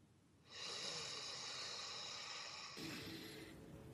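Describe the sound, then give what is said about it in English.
A single long breath through the nose, a steady airy hiss that holds for a couple of seconds and then shifts to a rougher tone toward the end, with no talk. “I invite all of you to just breathe 1 breath with me right now through your nose.”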